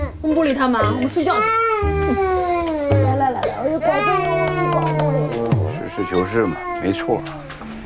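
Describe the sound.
A baby wails after being woken, a loud, continuous cry with wavering, sobbing pitch that carries through the whole clip with only brief breaks.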